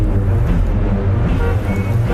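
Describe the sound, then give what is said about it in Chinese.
Steady engine rumble and road noise from a taxi car pulling away quickly, turning off a city avenue into a small side street. The low, continuous drone holds an even loudness throughout, with no voices. “出租车迅速拐入一条小街，瞬间驶离市区大道。”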